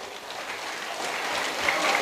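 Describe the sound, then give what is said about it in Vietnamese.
Soft audience applause during a talk to a group of young people, an even, gentle patter of clapping that swells slightly toward the end. “Ôi, cho các bạn này một tràng vỗ tay vì tính thật thà.”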